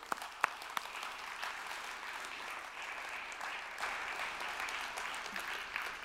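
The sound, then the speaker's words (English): Soft applause from an audience greeting a speaker coming up to be interviewed. The clapping is faint and continuous, with a couple of sharper single claps near the start. “Okay, I'd love to welcome Katie. Why don't we give Katie a hand?”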